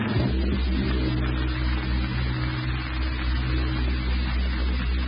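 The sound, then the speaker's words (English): Aircraft engines droning in flight on an air freight route toward Honolulu, a steady, dense low throbbing hum at constant loudness with no other sounds. “Oh, that's a lullaby to me. Yes, sir, when I get my Air Express business rolling, my whole life is going to be tied up with air freight motors.”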